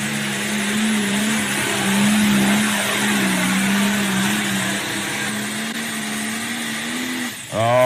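A pulling truck engine with a four-and-a-half-inch turbo exhaust and pulling tires roars in a loud, sustained drone of nearly level pitch, then dips briefly before a sharp rising rev at the end.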